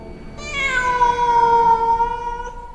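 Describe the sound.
A cat-like yowl used as a sound effect for a monstrous newborn in a horror story: one long, loud, harmonic-rich meow that dips in pitch early, then holds steady before cutting off.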